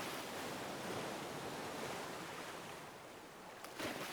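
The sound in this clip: Ocean waves wash onto a sandy beach on Sumba Island, a soft, continuous rushing surf that eases slightly near the end before a short swell. No voices.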